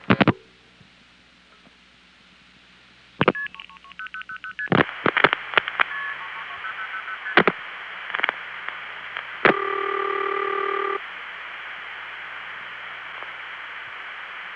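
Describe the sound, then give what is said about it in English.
Multi-frequency tones dial a seven-digit number over a telephone trunk from Hempstead into a Fort Myers NX1 switch: an opening noise burst and static, then quick paired-tone beeps among sharp clicks, and finally a longer steady tone. “It picks up the trunk and MFs the seven-digit number. The route for this call is Hempstead going directly to the Fort Myers NX1, which then MFs seven digits into itself and then proceeds to connect us to the intercept recording.”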